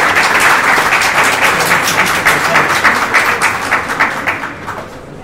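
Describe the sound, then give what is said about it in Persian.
Audience applause for a professor at a lecture on a book about Stoicism: dense, steady clapping from many hands that thins and fades gradually toward the end. “استاد خسته شده دست بزنیم به استاد”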